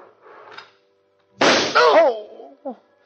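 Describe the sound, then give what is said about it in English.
A single sharp, loud gunshot bursts out and is followed at once by a brief voiced cry, with faint speech before the shot. “It was the funniest sensation, hearing the shot, feeling the panic, but nothing happened.”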